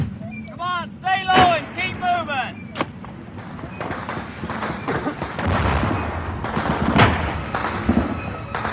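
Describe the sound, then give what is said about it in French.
Automatic weapons fire and grenades hit an embassy compound wall in a 1968 Viet Cong night attack in Vietnam: shouting voices at first, then a long stretch of many cracking shots and rumbling bursts. “S'ensuit une fusillade.”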